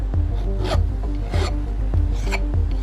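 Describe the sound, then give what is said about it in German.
A goldsmith at her workbench files a ring with a hand file, making loud, steady back-and-forth rasping strokes at an even rhythm, each push a gritty hiss, with no speech. “Goldschmiedin Caro, die Inhaberin von Goldzauber, sitzt an ihrer Werkbank und feilt an einem Ring.”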